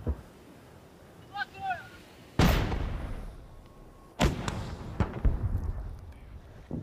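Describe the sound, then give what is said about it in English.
Artillery and gunfire on the front line near Kherson: two heavy booms, each followed by a long rumbling decay, with a few sharper reports after the second blast. “We're advancing on Kherson. The orcs are firing everything they've got.”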